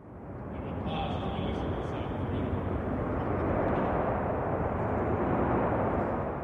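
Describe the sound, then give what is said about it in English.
Roar of nearby aircraft on an air force base, a dense, steady rumbling wash of noise that holds throughout and swells slightly toward the end. “Almost symbolically, Newman's speech was briefly cut off by the sounds of nearby aircraft on base.”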